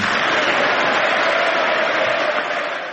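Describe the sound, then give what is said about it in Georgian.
Members of Congress give the US president a sustained ovation during his speech. Dense, continuous clapping and crowd noise hold at a steady loud level and taper slightly at the close. “გამოაცხადა შეერთებული შტატების პრეზიდენტმა, რომლის გამოსვლასაც, როგორც მოისმინეთ, კონგრესში ოვაციებით შეხვდნენ.”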